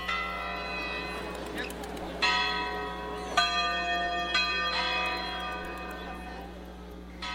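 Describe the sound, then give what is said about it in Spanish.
Village church bells ring out in a few clanging strikes, each blooming into long, shimmering overtones that linger and overlap into a continuous metallic wash. “¡Ah, qué bonito repican las campanas de mi pueblo!”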